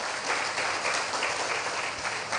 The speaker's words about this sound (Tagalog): Pwede ba nating palakpakan ng Panginoon?